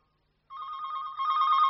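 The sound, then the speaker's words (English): A telephone rings after a moment of silence, a steady electronic trill that holds a single pitch and grows slightly louder partway through, with no voices. “Phone, darling.”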